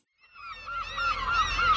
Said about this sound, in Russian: Очнувшись, я увидел, как чайки кружатся надо мной, подхватывая крыльями восходящие потоки теплого воздуха. Они кричали хрипло,